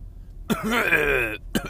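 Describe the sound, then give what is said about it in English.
A sick man in bed with a sore throat and an upset stomach coughs: one long, rough, voiced hack that is fairly loud and alone, then a short second burst right after. “I'm coughing everywhere, mate.”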